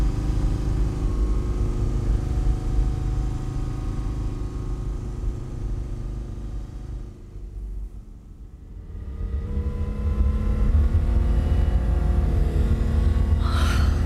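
A car driving fast as a radio-drama sound effect, its engine a loud, steady low drone that dips briefly midway before returning at full strength.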